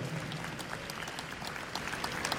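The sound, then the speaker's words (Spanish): A church audience applauds during a service, a steady, fairly faint patter of many hands clapping at once, continuing evenly from start to finish. “Un aplauso a Jesucristo, nuestro Señor.”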